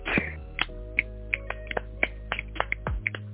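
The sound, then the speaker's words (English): Finger snaps given as applause by people with unmuted mics on an online call: many sharp, dry clicks in an uneven rhythm, some close together, over a steady low hum. “unmute your mic, clap your hands, stomp your feet, snap your fingers.”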